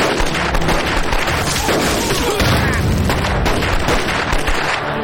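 Explosions and gunfire in a battle, a loud, dense, unbroken clatter of shots and heavy booms running throughout with no pause.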